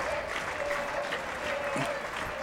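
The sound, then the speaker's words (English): Crowd applause and cheering at a wrestling match form a steady, fairly faint wash of clapping and voices with no sharp peaks. “And the crowd solidly behind Warhorse in this one.”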